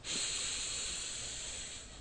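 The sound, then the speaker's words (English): A deep breath in during a guided breathing exercise, heard as a steady, airy hiss that lasts about two seconds and eases slightly at the end, with no talking. “Let's go ahead and take a deep breath in.”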